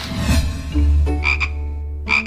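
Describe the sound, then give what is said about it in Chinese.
Toad croaking, an amphibian calling in a few loud, buzzy bursts with bright overtones over a low, steady rumble. “这个大普林蟾还是比较好抓的一类两栖动物了。”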